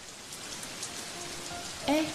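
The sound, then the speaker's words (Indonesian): Rain falling as a soft, even hiss of drops on surfaces, faint and continuous throughout, with no voices. “Hujan lagi.”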